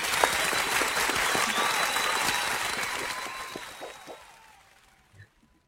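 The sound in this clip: An audience gives sustained, dense applause to welcome two Army veterans and actors as guests. The clapping holds steady for several seconds, then fades out, leaving a single faint thump.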